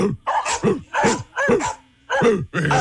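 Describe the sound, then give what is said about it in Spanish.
A dog barks in a rapid, harsh series of sharp, rough barks with short gaps between them. “¿Esa no es su perrita? No. A ver, déjame poner otra. Mi perro no ladra tan feo.”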